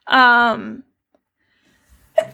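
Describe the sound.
A person sneezing twice: first a loud, long, voiced sneeze, then after a pause of silence a second one that is shorter and sharper.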